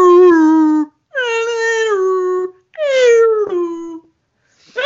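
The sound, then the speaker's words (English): A voice imitates humpback whale song as heard from a CD: three long, moaning wails, each sliding slowly downward in pitch and separated by short pauses, then a fourth one begins. “And I put it into the CD player and it was like,”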